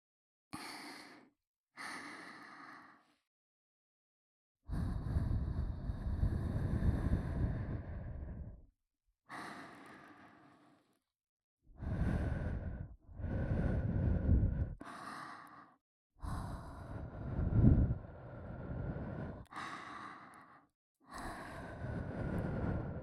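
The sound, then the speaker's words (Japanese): Gentle breaths blown close into the listener's ears, many separate airy puffs and longer soft exhalations with short pauses between them, some brief and others drawn out for several seconds, without talking. “まずは僕ちゃんのお耳ふうふうしていきますね”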